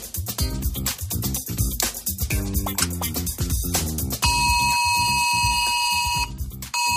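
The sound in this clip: A Civil Protection emergency alert tone warns of a red alert for heavy rain in the Madrid region. It is a loud, steady electronic tone lasting about two seconds, coming after a stretch of dense, busy sound.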